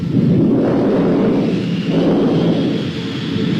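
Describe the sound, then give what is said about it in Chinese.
Thunder from an approaching storm, used as a radio-drama effect: a loud, continuous low rumble that swells and eases in slow waves, with no voices over it. “暴风雨要来了。”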